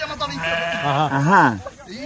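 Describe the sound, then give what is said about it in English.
A billy goat bleats near its young kid in one long, quavering call with a wobbling pitch that rises and falls, then fades into quieter sound. “Billy Goat trying to pick the little kid up. And then goes back in. You don't touch a Billy Goat's baby.”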